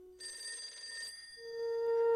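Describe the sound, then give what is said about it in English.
A telephone rings with a bright, trilling burst of high bell-like tones, fairly quiet and alone, followed by a steadier sustained tone. “While her phone rings”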